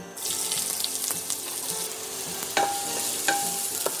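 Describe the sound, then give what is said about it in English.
Onions sizzle as they sauté in ghee and oil, a steady crackling hiss with stirring scrapes and a couple of ringing metallic clinks toward the end. “So we're going to add some ghee and some oil. Add the onions to sauté.”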